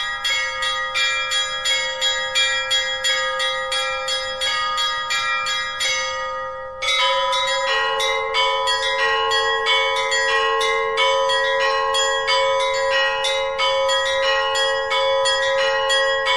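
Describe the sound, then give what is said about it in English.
Russian Orthodox church bells ring for Easter in a dense, continuous peal of many overlapping strikes with bright, layered tones. The chiming breaks briefly partway through, then resumes just as busily. “we were enchanted by the mesmerizing beauty of the bell chimes during the traditional bell ringing week.”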